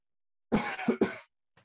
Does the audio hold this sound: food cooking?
no

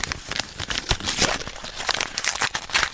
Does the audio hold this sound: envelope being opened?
yes

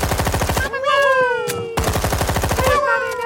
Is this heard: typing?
no

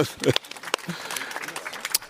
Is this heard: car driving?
no

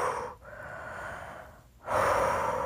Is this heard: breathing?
yes

